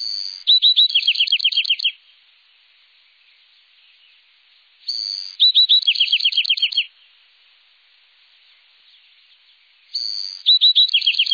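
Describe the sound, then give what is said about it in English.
An adult male Bewick's wren sings crisp, well-defined songs separated by long pauses. Three bright, high-pitched songs each open with a sharp note and run into rapid trills, and the last is cut off. “The young Buick Wren is listening to the song of his father, who sings a crisp, well-defined song, separated by pauses.”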